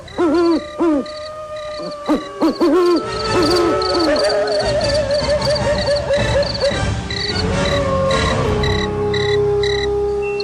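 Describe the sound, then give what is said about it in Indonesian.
An owl hoots from a house roof at night. A quick run of repeated hooting notes comes first, then longer wavering tones over a steady, faint background. “Tanda-tanda kedatangannya diawali dengan terdengarnya suara burung hantu bertengger di atas bumbungan atap rumah.”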